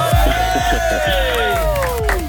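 A studio audience cheers and applauds to welcome a contestant, a loud, continuous wash of clapping with rising and falling whoops and shouts throughout.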